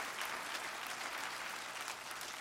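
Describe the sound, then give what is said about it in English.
A church audience claps hands: dense, steady applause from many people that continues without a break from start to end. “Somebody clap your hands if you're thankful for that.”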